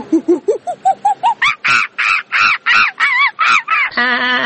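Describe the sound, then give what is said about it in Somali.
Bird call with harsh, crow-like caws: a rapid series of many short harmonic calls that climb steadily in pitch, then one longer, buzzy sustained call at the end, loud and alone. “Shimbiraha.”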